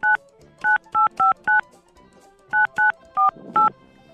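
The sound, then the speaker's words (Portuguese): Telephone keypad dialing tones: nine short, bright electronic beeps, a quick run of five, a brief gap, then four more, each a clean two-pitch tone against a quiet background. “eu ligo pra esse cara há mais de 3 anos. Eu sei o número dele de cor, viu?”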